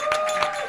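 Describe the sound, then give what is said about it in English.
Bangles jingle on wrists during a few quick handclaps, giving bright metallic ringing tones that sit over soft, evenly spaced claps in a short, fairly quiet burst. “That is the sound of my bangles as I clap because it's exciting times.”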